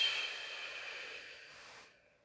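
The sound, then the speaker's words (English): A slow, deep breath through the nose during a children's meditation: a soft, breathy hiss that stays steady and then fades to near silence, faint and alone without talk. “Make sure our nose is clear. And take a deep breath and breathe. And breathe out.”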